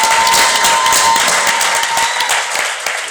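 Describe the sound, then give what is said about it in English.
Audience applause, a dense, continuous wash of many hands clapping at once, holding steady before easing off slightly toward the end. “There you have it. Ladies and gentlemen, David Shands. Round of applause.”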